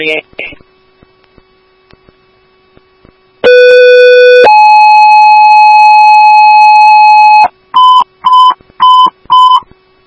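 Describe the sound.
Emergency dispatch alert tones paging a fire station and ambulance: a steady electronic tone, then a higher tone held for about three seconds, followed by four short, evenly spaced beeps after a brief pause.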